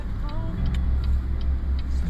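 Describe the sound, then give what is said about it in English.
Steady low rumble of a car driving on a road, recorded from inside, continuous and fairly loud with a faint ticking above it. “Okay, we're driving Ken back to his car because he has to go back home.”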